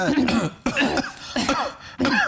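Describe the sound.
Dry coughing from an irritated, tickly throat that lingers after bronchitis comes as four rough bursts in a row with short pauses between them, fairly faint.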